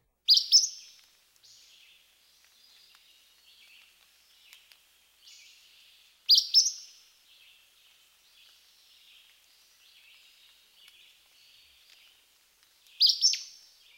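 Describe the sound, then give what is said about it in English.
Acadian flycatcher repeating its two-noted song three times, sharp, high-pitched and emphatic bursts separated by long gaps, with faint softer chips between them. “This two-noted song is typically repeated with little or no variation. Here's the Acadian flycatcher again.”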